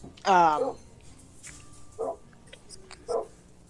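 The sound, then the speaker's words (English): A dog barks three times. The first bark is loud and sharp, and two shorter, fainter barks follow at spaced intervals. “Shut it, dog.”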